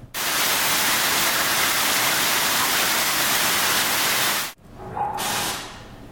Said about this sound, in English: here's another example of sound from rain, which is actually pretty common. So that sounds like this.